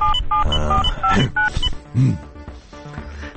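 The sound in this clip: A telephone number is dialed, giving a rapid series of short, clear two-tone beeps of varying pitch, one after another.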